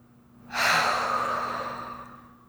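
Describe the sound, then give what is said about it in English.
A single long, deep breath taken during a calming breathing exercise rises abruptly to a full rush of air and then fades gradually over about two seconds, with a faint steady hum beneath. “One more deep breath.”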